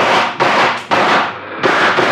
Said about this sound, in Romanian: Atențiune, ochiți, prieteni. Atențiune, foc! Trebuie să ne deschidem calea spre corturi. Foc, prieteni!